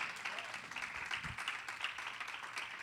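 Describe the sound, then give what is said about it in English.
A church audience claps hands in praise during a sermon, a faint, continuous wash of many hands clapping at an even level throughout. “if you're happy about this word on today, you ought to just keep giving God a hand clap of praise.”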